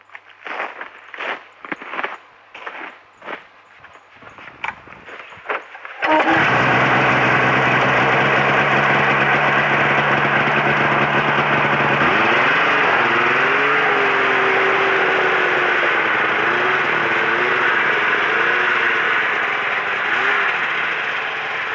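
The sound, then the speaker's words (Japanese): Snowmobile heading to the shore of ice-covered Lake Hibara. A few short crunching sounds come first, then the engine starts and holds a loud, steady drone, its pitch rising and wavering as it revs midway. “スノーモービルで湖畔まで向かいます。”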